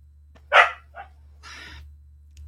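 A dog gives one sharp, loud bark, then a softer short yip and a brief, breathy whine, all over a steady low electrical hum.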